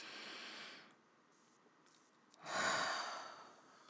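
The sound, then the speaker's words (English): Breathing in through the nose and out through the mouth: two soft, airy breath sounds, a steady hiss followed after a pause by a louder, fuller breath that gradually fades. “Let's go ahead and start with really just one inhale in through the nose and out through the mouth.”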